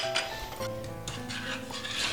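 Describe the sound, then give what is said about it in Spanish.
Sugar, lemon peel and a cinnamon stick are stirred in a pot on the heat while making torrijas. Faint, continuous scraping and swishing is broken by a few light clinks. “Y lo remuevo, lo dejaré en el fuego hasta que empiece a hervir.”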